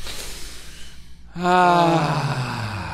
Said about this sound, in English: Let's take a deep breath and clear our mind.